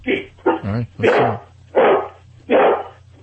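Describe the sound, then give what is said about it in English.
A trained dog barks and yowls on command in a rhythmic run of about five vocal bursts, some bending up and down in pitch as if imitating a spoken phrase, over a faint steady low hum. “Now, dig this. I trained him in dog language, okay? He says, I love Judy, okay?”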